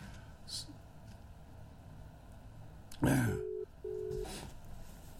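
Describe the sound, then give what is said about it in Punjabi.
Telephone call tones sound as two short, steady low beeps of equal length separated by a brief gap, preceded by a sharp rustling burst over faint background noise. “ਮੈਂ ਉਹਨਾਂ ਨੂੰ ਕਾਲ ਕਰਕੇ ਵੇਖ ਲੈਂਦਾ ਜੇ ਉਹ ਨਾ ਵੀ ਹੁਣ, ਹਾਂ ਉਹਨਾਂ ਦੀ ਆ ਗਈ ਕਾਲ ਆ ਗਈ।”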